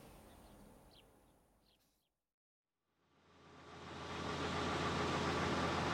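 Tractor and trailer tipping out the last load of barley: a low engine rumble fades to near silence, then a broad rushing roar rises and holds loud and steady.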